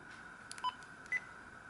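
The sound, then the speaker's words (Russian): Faint key-press beeps from a digital voice recorder: two short electronic bleeps at slightly different pitches, well separated, over quiet background hiss. “Звук клавиш.”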